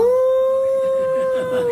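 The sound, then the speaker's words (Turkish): A primary-school child imitating a wolf howl with one long, loud, sustained vocal tone rich in harmonics. The pitch stays nearly level for almost two seconds and dips only slightly at the end. “Önce şiirini okudu, ardından kurt gibi uludu.”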